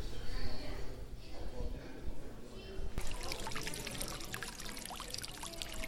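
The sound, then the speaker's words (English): Water runs and splashes steadily in a fountain inside a warm, humid flower conservatory. The continuous trickling and pouring turns brighter and more splashy midway, with an indistinct murmur of voices underneath. “That's the sound of water and fountain. Live here on location.”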